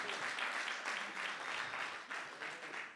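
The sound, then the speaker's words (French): An audience in church applauding in praise, a steady, dense patter of many hands clapping that swells slightly in waves throughout. “Est-ce qu'on peut acclamer le Seigneur pour dire oui Seigneur, je veux cela.”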